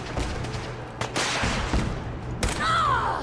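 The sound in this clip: Gunfire from a .308 rifle in a video game: a couple of sharp, noisy shots crack out over a constant background rumble.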